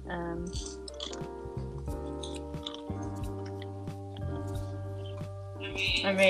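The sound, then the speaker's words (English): Crunchy bites and chewing of breaded food and fries, a few crisp crackling crunches over a steady tonal background. “So I'm going to take a bite here. So maybe, I don't know if there's going to be some ASMR action going on. Oh yeah, can't forget the fries. Here it goes.”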